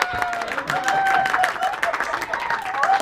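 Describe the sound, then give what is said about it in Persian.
Clapping at a family gathering, a lively patter of hands with voices calling and cheering over it, moderately loud and continuous throughout. “به افتخار الی جون دست بزنیم.”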